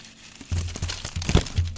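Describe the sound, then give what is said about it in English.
Paper confetti cut from a script falls onto a microphone, giving soft, crinkly rustling with a scatter of low, muffled taps as pieces land. “That was the sound of confetti. Actually, one of my scripts that I cut up into tiny pieces falling all over my microphone.”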